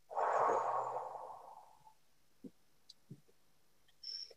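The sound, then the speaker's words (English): A loud, deliberate exhale during a relaxation breathing exercise: a breathy rush that swells quickly, then thins and fades over about two seconds, followed by a few faint clicks. “I'm going to breathe loud so people can hear it on the podcast. So breathe in again and then breathe out.”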